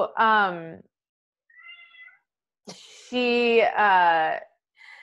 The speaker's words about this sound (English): My cat's coming to say hi. I hear him.